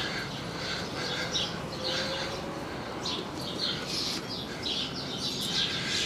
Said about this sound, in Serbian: Ovdje kao što je ptičice crkuću.